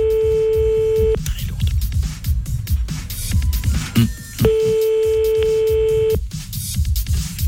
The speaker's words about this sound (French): On appelle une personne âgée